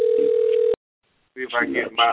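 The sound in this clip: Telephone dial tone heard while placing a call: a steady, loud, unbroken tone lasting under a second, cut off abruptly, followed by silence and then a person talking.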